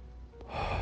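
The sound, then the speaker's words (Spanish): A deep breath drawn in during a guided relaxation exercise, a breathy hiss that swells steadily louder and stays full toward the end. “vas a dar tres respiros profundamente.”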